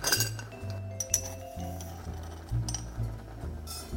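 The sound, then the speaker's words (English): Clinks of a cast iron skillet set on a stove over medium heat: a few sharp metallic taps, bunched near the start and then spread out, over a steady low background. “So I am setting a cast iron skillet on the stove.”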